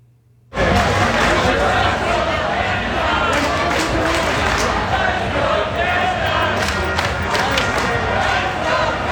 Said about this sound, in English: That's the sound of fans on Granville Street cheering for Canada right after their big win against South Africa this past Sunday.